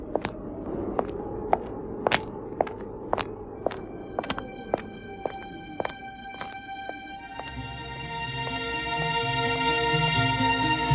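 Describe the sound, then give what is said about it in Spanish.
Footsteps of a woman walking through fog in a radio drama, a steady series of crisp, evenly spaced steps, with sustained tones swelling in behind them toward the end. “Y se deja acariciar por Jan, que continúa caminando, envuelta por la niebla.”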